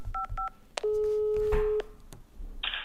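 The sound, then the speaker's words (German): Telephone call being placed to a customs investigation office in Dresden: two short keypad dialing beeps, then one long steady ringing tone, followed by a few brief clicks and line noise. “Ein Anruf beim Zollfahndungsdienst in Dresden.”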